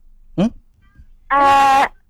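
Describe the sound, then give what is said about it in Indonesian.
Kitten meowing, one short cry followed by a longer, fuller meow with clear harmonics, the two separated by a brief quiet gap. “Anak kucing.”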